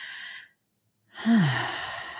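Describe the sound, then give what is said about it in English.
A deep cleansing breath: a short airy intake, a brief silence, then a long audible exhale with a voiced, sighing tone that fades out gradually. “Let's take a deep cleansing breath on behalf of Megan.”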